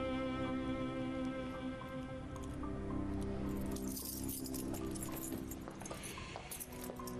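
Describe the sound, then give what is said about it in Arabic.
House keys jangle as they are handed over, a bright metallic jingling that rises in the second half above a steady, sustained tonal background. “هاي مفاتيح البيت، الباب الرئيسي والباب الداخلي.”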